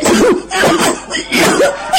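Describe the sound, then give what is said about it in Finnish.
A human voice imitates coughing with three loud, rough, voiced bursts in steady succession. “Ja sitten se alkoi yskimään tällä tavoin.”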